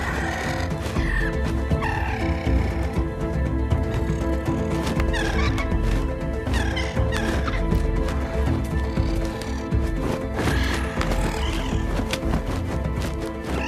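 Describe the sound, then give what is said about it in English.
Large long-legged birds fight, flapping and pecking, amid dense, continuous squawking, gobbling and clucking calls over a loud, busy background. “The birds flap into the air, facing each other. They fight, swiping and pushing each other with their long legs and pecking with their sharp beaks.”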